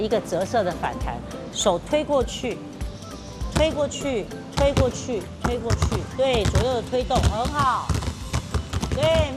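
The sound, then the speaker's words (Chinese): Basketball dribbled back and forth between left and right hands during a basic ball-handling drill, producing many rhythmic bouncing thuds beneath nearly continuous talking. “左右换手的运球可以吗？好，我们来试试看， 试试看。”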